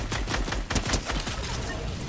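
Rapid gunfire in the video game Fortnite: dense, overlapping bursts of shots that run loud and almost unbroken through the whole moment, with a few sharper cracks standing out.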